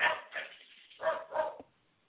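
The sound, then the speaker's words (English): A few short, sharp barks from household dogs, coming in two quick pairs at moderate volume with no talk over them. “Okay, my dogs are barking again. Shh. I have four dogs, by the way.”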